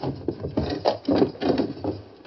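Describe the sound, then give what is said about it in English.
A wooden window creaks and rubs as it is slowly pushed open. A series of dry, uneven scraping and squeaking bursts of moderate loudness rise and fall with no other sound. “Let me try to open this window without attracting attention.”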